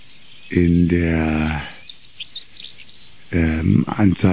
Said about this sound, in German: Dieser Vogel sitzt sehr exponiert, gerne auf so kleinen, übrig gebliebenen Stauden vom Vorjahr